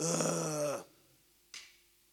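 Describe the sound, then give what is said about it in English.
A person lets out a single low vocal groan, as in wordless prayer. It holds steady for under a second, then falls away, followed by a faint, short breathy sound. “even when I don't have the words, if I just groan the Spirit intercedes for me, if that's all I've got is a,”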